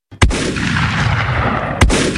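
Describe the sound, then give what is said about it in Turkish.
Gunfire from a pump-action shotgun and pistols fired into the air at a wedding celebration in Ankara's Çankaya district: two loud, sharp blasts with dense, roaring noise sustained between them. “Düğün kutlamasını bahane eden altı şehir eşkıyası pompalı tüfek ve tabancayla havaya mermi yağdırdı.”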